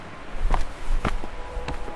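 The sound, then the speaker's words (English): Footsteps land on a boardwalk of hard wooden planks with a few slow, evenly paced, dull thuds over a low background hum. “Focus your attention on the rhythm of your steps. Left foot, right foot, left, right.”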